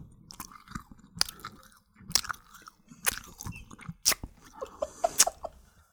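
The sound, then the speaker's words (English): Noisy chewing of sweets, deliberately exaggerated, in a series of wet, crunchy mouth bursts at a fairly regular pace, each separated by brief quieter pauses. “They put sweets in their mouth and they're eating it like this.”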